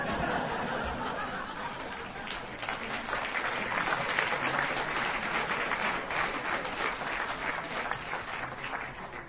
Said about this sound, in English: And a big round of applause for that.